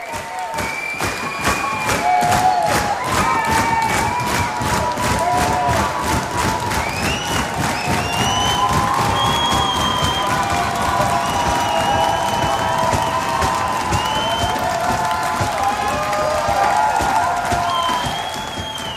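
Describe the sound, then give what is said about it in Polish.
Concert audience cheering and applauding to demand an encore from a New York band at the tenth edition of a festival: dense, sustained clapping and crowd roar with scattered shouts, loud and steady for the whole stretch. “Koncert okazał się znacznie w cudzysłowie brudniejszym graniem, co zachwyciło publiczność, która wymusiła na Nowojorczykach bis. Mówię wymusiła, zresztą proszę ocenić osobiście.”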